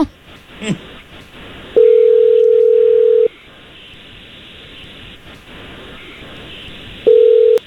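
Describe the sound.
A steady telephone tone sounds while a phone call is being placed, a low continuous hum heard in two long bursts separated by a pause, over faint background hiss.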